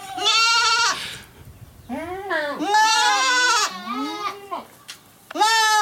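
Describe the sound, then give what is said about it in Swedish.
Goat bleating in several loud, wavering calls with strong harmonics, separated by short gaps. No voices are heard. “Ja, det är julgetabocken.”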